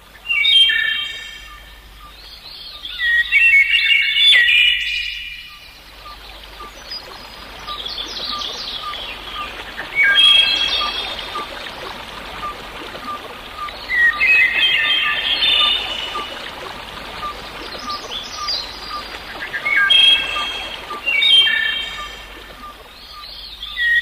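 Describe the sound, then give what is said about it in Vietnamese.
A nightingale sings from a thicket beside a pond in a few bursts of rapid, high, trilling phrases separated by pauses, over a steady soft hiss. “Một con họa mi nấp trong bụi rậm mọc sát bờ ao cất tiếng hát líu lo.”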